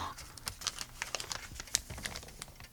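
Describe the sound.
A small paper envelope is handled inside a hidden compartment in a floor plate. Faint, quick crinkles and light ticking rustles come in many small irregular bursts.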